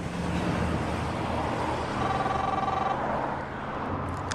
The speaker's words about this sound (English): drives through a dimly lit road tunnel